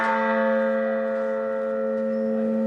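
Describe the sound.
A church bell from a newly cast peal rings one long sustained tone, loud and steady with rich overtones, humming on with little fade across the short stretch and no other sounds.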